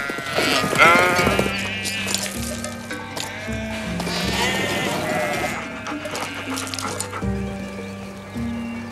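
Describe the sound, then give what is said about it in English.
A large flock of sheep bleating at dusk, with many overlapping, wavering calls at varied pitches, some thin and high, others deeper. The calls are loud and continuous throughout, and no one speaks. “She-Wolf observing the large flock of sheep at dusk.”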